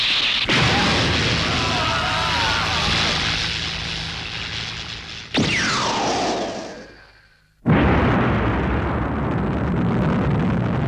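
The ray weapon of the flying castle Laputa from the animated film Castle in the Sky fires with a thunderous, sustained roar. A descending whistling sweep fades out, then another heavy roaring blast erupts and continues.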